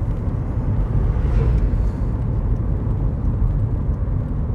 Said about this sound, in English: Won't be a long trip this. Just really to get the car out, warm it through and charge the batteries.